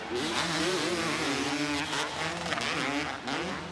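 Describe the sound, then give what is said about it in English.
Two-stroke racing motorcycle engines wind out hard during a dirt-bike race over whoops. They give a loud, buzzing, harmonic whine whose pitch shifts up and down as the riders work the throttle, with no talk over it. “Awesome to hear these two strokes wound out here.”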